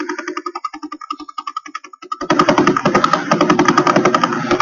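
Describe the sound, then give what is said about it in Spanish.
A radio recording of a pulsar rotating about 30 times per second sounds as rapid rhythmic pulses, at first a sparser stuttering beat, then a louder, denser mechanical-sounding pulse train. “Este es otro pulsar, este es uno de mis favoritos. Es que parece... Gira cada, creo recordar, unas 30 revoluciones por segundo.”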